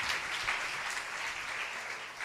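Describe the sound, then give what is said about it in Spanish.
Congregation clapping hands in praise at a church service, a continuous, evenly dense round of applause that holds at a steady level from start to finish. “Dele palmas de alabanza, amados hermanos.”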